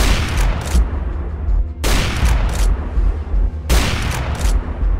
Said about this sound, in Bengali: এক নিমেষে তিনটে সাপ্রেস স্নাইপার গুলির আওয়াজ কানে এলো